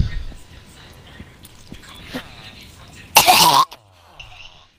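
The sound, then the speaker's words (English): A person chokes and coughs, with quieter throat noises before one loud, harsh burst of coughing that lasts about half a second and then cuts off. “Sounds like you're choking on everything. What are you choking on?”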